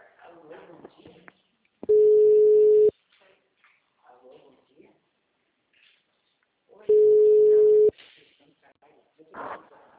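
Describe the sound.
Ringback tone on an outgoing phone call: two long, steady, mid-pitched tones about five seconds apart, each lasting roughly a second, with faint voices and small noises in the gaps between them.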